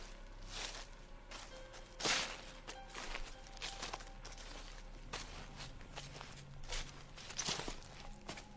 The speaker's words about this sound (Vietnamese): Ở bên ngoài chợt có tiếng động, có tiếng bước chân nhẹ nhẹ ở sau nhà.